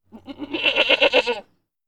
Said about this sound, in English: Goat.